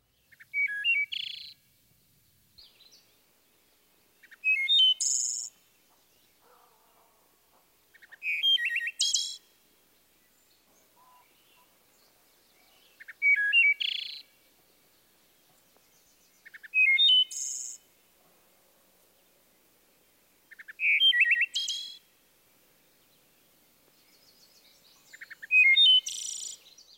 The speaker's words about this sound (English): The main part of the wood thrush's song can be represented as Eole. Listen for this flute-like phrase and its variations, sandwiched between introductory and ending notes.